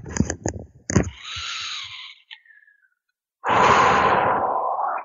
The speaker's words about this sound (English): And take a deep breath.